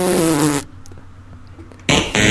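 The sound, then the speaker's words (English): A voice imitates a fart, a person mimicking breaking wind while bending toward the toes in a stretching class in a sports hall. There is a loud, rough, buzzing burst about half a second long, then a quiet gap and a shorter burst at the end. “So I did a massive fart, which I thought was really funny.”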